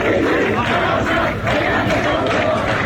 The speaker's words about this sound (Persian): دیگه یه جوری شده بود که دانشجوها تو خیلی از دانشگاه ها اینجوری شعار دادن علیه حراست دانشگاه.